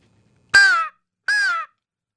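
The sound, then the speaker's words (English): Two loud, raspy caws come from a blown bite-and-blow slammer crow call used for hunting, imitating a crow. Each caw lasts under half a second, separated by a short silence. “this is just our bite and blow for hunter specialties, our slammer crow call. It's, you just blow it,”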